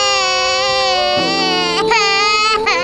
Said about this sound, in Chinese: 哎呀，你是不是哭了呢？ 对不起，这位先生，把您女儿吓哭了。